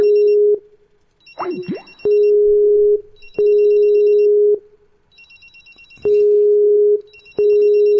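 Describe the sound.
Ringback tone of an outgoing telephone call: a steady low electronic ring in paired bursts with pauses between, two full double rings after a partial one. A short sliding sound briefly breaks in near the start.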